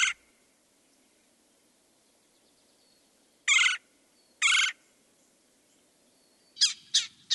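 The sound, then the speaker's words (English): Rolling, churring calls of a red-bellied woodpecker: short raspy bursts separated by silence, two spaced apart in the middle, then a quick cluster near the end. “Another one of my favorite songs or calls is the red-bellied woodpecker. It's not really a song. And to me, it sounds like a tummy gurgling”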